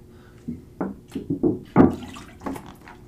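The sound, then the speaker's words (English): Gulps of purified water swigged from a gallon jug: a series of wet glugs and gurgles in an irregular rhythm, alone against a quiet background. “sorry, I have to take a swig out of my gallon of purified water.”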